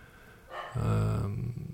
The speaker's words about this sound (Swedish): nu blir jag lite distraherad av en skällande hund här.